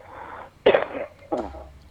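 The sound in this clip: Coughing from a person with a throat irritated by dust during dry weather: a sharp, harsh burst followed by a second, shorter cough, heard alone.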